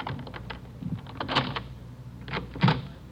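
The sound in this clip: An apartment door is handled and opened: a faint series of clicks, rattles and soft knocks in a quiet scene from an old radio drama.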